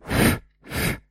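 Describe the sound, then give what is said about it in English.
Breath is blown into a microphone in two loud, breathy bursts of rushing air, each about a third of a second long, with a short silent gap between them. “For example, I can blow into the microphone.”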